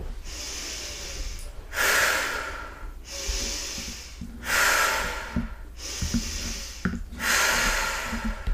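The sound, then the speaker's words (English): Breathwork pattern of air drawn in through the nose and pushed out through the mouth, repeated over about three slow cycles. Each exhale is a louder, airy rush than the softer inhale, with no voices. “So you're breathing in through your nose and out through your mouth. So it could look and sound like this.”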